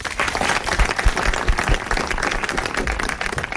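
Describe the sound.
Audience applause welcoming guests at a film evening: a loud, continuous crowd of hands clapping with a dense, steady texture that hardly rises or falls.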